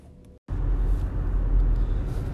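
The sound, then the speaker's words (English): Car driving home from work, heard from inside: a steady, loud, low rumble and road hum follow a brief dropout near the start and continue evenly throughout, with no talk. “Just driving home from work.”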